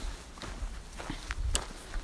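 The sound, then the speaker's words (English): Footsteps on a woodland walk, a run of soft, irregular crunching steps over a low, steady outdoor background. “to finally be able to enjoy a woodland walk without having to dodge around snow”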